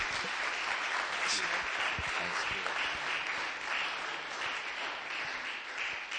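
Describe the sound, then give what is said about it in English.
Sustained audience applause welcoming a Bible college principal to preach, a dense, even wash of many hands clapping at steady loudness throughout. “Why don't you put your hands together and welcome Paul Alexander to come and share the word.”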